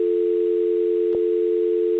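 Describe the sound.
A telephone dial tone holds as a steady, even, unbroken hum at constant loudness, with one faint click near the middle.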